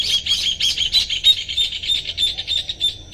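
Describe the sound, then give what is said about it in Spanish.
Birds flock in to roost in the crowns of caldén trees at dusk, with doves among the arrivals. Many shrill squawks and chirps overlap in a steady, busy chorus with no voices. “En la copa de los caldenes y algunas otras plantas. Las palomas también están llegando aquí a dormir.”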